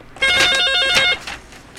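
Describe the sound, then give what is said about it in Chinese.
A telephone rings loudly: one sustained trilling burst of rapid, high electronic pulses, followed by a fainter trailing tail. “我先听电话接吼。”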